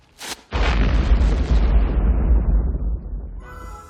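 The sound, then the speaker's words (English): A bomb hidden in a Christmas package goes off as it is opened: one loud, deep blast followed by a long, low rumble that slowly fades over about three seconds. “That was really a bomb? Just a sick world we're living in. Sick people. He opens it up, and boom. Real bomb.”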